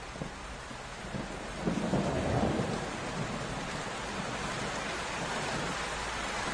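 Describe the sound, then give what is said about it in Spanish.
A thunderstorm with heavy, unbroken rain hissing steadily throughout. A low rumble of thunder swells briefly near the middle, then fades back into the downpour. “Se escuchan truenos. Y estalla una tormenta. Una lluvia interminable.”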